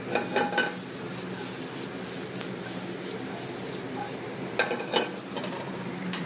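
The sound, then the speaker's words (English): Black-eyed peas sizzle in a pan of mirepoix as they are stirred in. The steady crackling hiss runs throughout, with a few louder scraping bursts near the start and again toward the end, and no one talks. “Black eyed peas, I'm gonna add those to the mirepoix now.”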